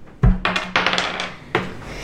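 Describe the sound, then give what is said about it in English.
Green dice rolled during a tabletop game clatter onto a hard surface in a few quick, rattling bursts, each a sharp impact followed by brief tumbling. “each one of you is going to roll a green dice. I need to see green dice rolls.”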